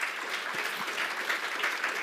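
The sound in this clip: A church audience claps during a worship service. Dense, steady applause of many hands continues evenly through the whole clip at moderate loudness, with no voices heard.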